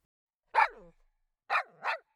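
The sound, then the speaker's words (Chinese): A big dog barks three times: one sharp bark, a pause, then two more in quick succession. The barks are clear, with no other sounds around them. “哇，好可爱的大狗狗，人家来喂狗狗吃零食”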